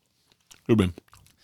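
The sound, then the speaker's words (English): Loud wet chomping of someone chewing, packed into one short dense burst of mouth noise with a few faint clicks before and after. “Just fucking chomping in there.”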